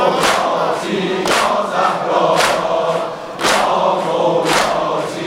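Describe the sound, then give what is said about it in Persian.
Women in a crowd chant a religious song in unison, loud massed voices surging in a steady rhythmic pulse roughly once a second. “خواهرا بخونن، خواهرا بخونن.”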